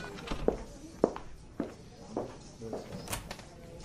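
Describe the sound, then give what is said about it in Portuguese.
A woman's footsteps sound along a hospital corridor as a quiet, regular series of soft steps at an even walking pace. There are a few faint extra knocks, and no voices are heard. “No hospital, Flaviana está andando pelo corredor.”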